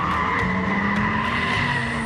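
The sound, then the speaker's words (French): Engine of a 30-year-old, 470-horsepower turbocharged car under way: a loud, constant, tonal drone that holds steady for the whole stretch, with no voices. “on peut vous dire que les 470 chevaux, ils sont bien là. Franchement, l'auto, elle a 30 ans.”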